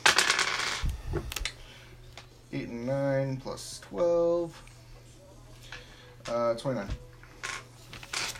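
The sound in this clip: Dice clatter in a quick, bright burst as they are rolled for damage in a tabletop role-playing game, followed by people talking over quieter scattered rattles.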